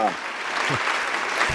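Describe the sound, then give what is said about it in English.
An audience applauds the Stars head coach with a steady wash of clapping, while a voice briefly speaks at the very start. “applause from you guys, you know, you guys could have told me that early.”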